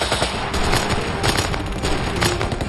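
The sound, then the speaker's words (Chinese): Automatic gunfire from a Sten submachine gun in a wartime battle against German tank crews: dense, continuous rapid fire with overlapping sharp reports filling the whole clip at a steady, loud level. “我对二号说，给他们尝尝丝灯的味道，他照做了。”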